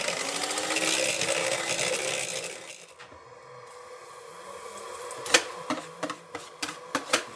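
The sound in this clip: An electric mixer whips egg whites for a dough, giving a steady, fairly loud whirring drone for the first few seconds before it stops, followed by a quieter stretch and a series of sharp clicks and knocks.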